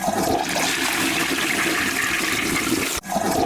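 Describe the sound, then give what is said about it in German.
A toilet flushing: a loud, steady rush of water roars for about three seconds, dips sharply for a moment, then surges back just as strongly. “oh, es spielt ja doppelt das Klo, das wusste ich ja gar nicht.”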